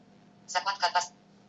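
The ringing tone of an outgoing phone call: four quick, bright, evenly spaced bursts packed into about half a second, then quiet again.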